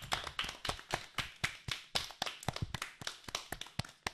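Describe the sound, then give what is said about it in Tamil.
Audience applause for a student who has just spoken on the merits of the palmyra palm, many quiet, crisp hand claps in a brisk, fairly regular patter. “பனைமரத்தின் சிறப்பை சிறப்பாக எடுத்து கூறிய மாணவி சாருமதி அவர்களுக்கு பலத்த கரவொளி எழுப்பி நமது பாராட்டுக்களை தெரிவிப்போம்.”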